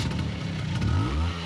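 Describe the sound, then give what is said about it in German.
A Vespa scooter engine starting, heard as a brief, low engine hum that swells and revs up slightly midway through the short sound. “Das ist der Sound einer Vespa.”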